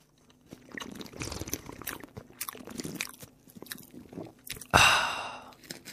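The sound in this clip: Crunchy chewing of a Corny peanut and salt snack bar: many crisp bites and grinding crunches, with a sudden loud crunch near the end.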